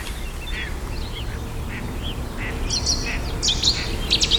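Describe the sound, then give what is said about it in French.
A great tit sings a string of short, high, repeated notes, fairly faint over steady outdoor noise. Harsher buzzy bird calls join toward the end. “Mésange charbonnière.”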